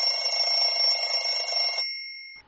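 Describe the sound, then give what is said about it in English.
A phone ringing with a continuous, buzzy electronic tone holding several bright pitches. It cuts off abruptly, leaving a thin high tone that fades out alone. “What? What happened? Oh, her phone rang!”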